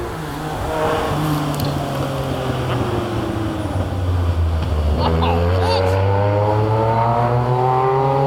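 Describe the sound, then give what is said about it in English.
A Jaguar XJ car drives past under hard acceleration, its loud engine drone holding steady and then sliding down in pitch, with a strong, continuous roar throughout. “Did I just see that? It was a Jaguar XJ having a go.”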